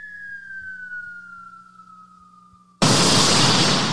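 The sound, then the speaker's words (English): A falling-bomb effect: a thin whistling tone slides steadily downward for a few seconds, then cuts into a sudden, loud, roaring explosion that sustains to the end. “Oh, man, that's a bomb obliterating something.”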